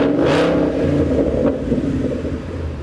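A Roush Stage 3 Mustang engine revs hard while downshifting, a loud, continuous low roar and rumble that holds steady throughout.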